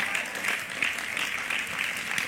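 Audience applause at a sermon, a steady dense patter of many hands clapping with a bright crackling texture, fairly loud and continuous throughout with no break.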